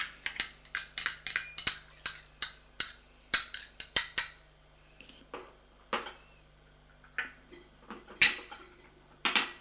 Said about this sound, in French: Il met dans son bol du sucre en poudre.